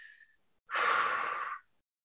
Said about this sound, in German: Du konzentrierst dich nur auf den Ausatmen, Atem. Ja, also so.